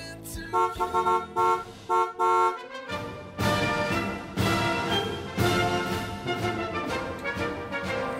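A brass band plays a march introduction: short, loud blaring chords in separate bursts, then a full sustained strain of brass with a driving beat.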